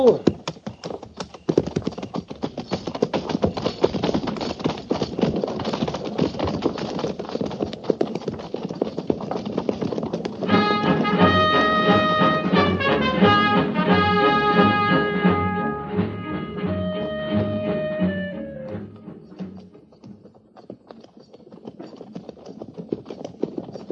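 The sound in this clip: Many horses clip-clop at a walk as a cavalry troop rides out by twos from a fort. Dense, steady hoofbeats carry on throughout and thin out near the end.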